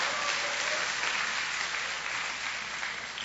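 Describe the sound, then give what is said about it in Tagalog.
Sustained applause offered in praise of the Lord, a steady, moderately loud clapping with no talk over it. “Because pwede pong palakpakan natin ang Panginoon, nanalo tayo ng Miss Universe.”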